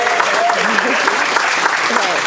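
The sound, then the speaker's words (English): A round of applause from an audience for a presenter. Dense, steady clapping continues throughout while voices talk over it. “Okay, wait, before you do, give Carla a round of applause.”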